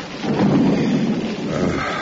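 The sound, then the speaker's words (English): Rain falls with a deep rolling rumble of thunder, a loud low roar that swells early and holds across the short stretch, with no voices. “Curse this rain.”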